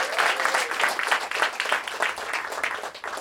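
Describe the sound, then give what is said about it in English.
An audience at a live concert applauds, dense rapid clapping holding steady and fairly loud for a few seconds, with faint cheering mixed in. “make some more noise for those two guys”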